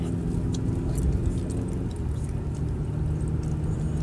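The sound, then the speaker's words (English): A car driving on a two-lane road on the way to work gives a steady, low engine and road rumble, even in loudness throughout, with no talk. “I'm driving here on this road to work. It's two lanes.”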